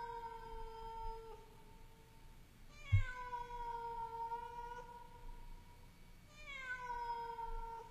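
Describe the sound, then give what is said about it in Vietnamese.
A cat meows at a funeral wake, letting out three long, drawn-out, mournful cries, each bending slightly downward. The calls are fairly faint over a low hiss. “Tiếng mèo kêu vẫn không dừng lại.”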